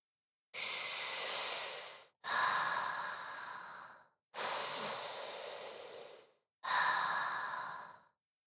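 Deep breathing heard alone: four long, airy breaths, each lasting around one and a half to two seconds and fading slightly, separated by short silent pauses.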